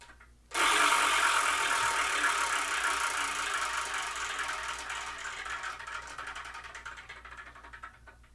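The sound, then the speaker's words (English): A spinning wheel picks a number: a dense, rapid clicking rattle starts abruptly and runs on steadily, slowly thinning out until separate ticks can be made out near the end. No one speaks. “But let's spin and see what we're going to review in the next episode, because I'm kind of excited.”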